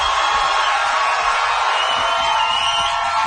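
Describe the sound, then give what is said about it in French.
A studio audience in Montreal cheers and makes noise, with a steady, energetic roar of whoops and shouts that holds at a constant level from start to finish. “Est-ce que la foule qui est ici avec moi à Montréal est en forme? Si oui, faites du bruit.”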